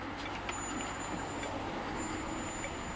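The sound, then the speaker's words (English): Modern Beijing street traffic gives a continuous, even roar of road vehicles with a broad hiss and a thin high whine above it, with no distinct horns or single events standing out. “Today's Beijing sounds like this.”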